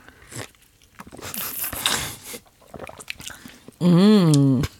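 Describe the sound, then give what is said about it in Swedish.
A wooden spoon stirs an iced double espresso with milk, making a rough crunching scrape of ice that lasts about a second. Voices are heard before and after. “Vi måste ju blanda på något vis. Och träsked. Så här har vi alltså dubbel espresso, is och mjölk.”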